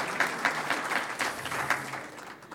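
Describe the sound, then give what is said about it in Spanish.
Audience applause for a man singled out from the crowd: moderately loud clapping with a pulsing, regular beat of repeated swells that eases slightly toward the end. “De una personalidad, un aplauso a él.”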